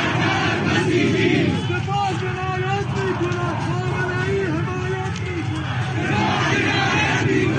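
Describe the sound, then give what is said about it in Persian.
Protest crowd chanting in the streets of Sistan and Baluchestan, Iran, at a large Friday demonstration. Massed voices rise and fall in a rhythmic chant, loud and continuous, with crowd hubbub underneath. “امروز در بلوچستان، سیستان و بلوچستان، مردم دلاور سیستان و بلوچستان به رسم هر آدینه جمعه به خیابان‌ها آمدن و چه تظاهرات بزرگ و باشون.”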